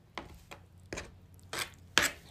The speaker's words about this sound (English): I'll just cut it up now. These are small pieces.